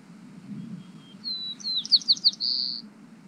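Song of a local male bird: after a thin high whistle come three quick bright notes and then a buzzy sustained phrase, all high-pitched and fairly faint over a steady low hum.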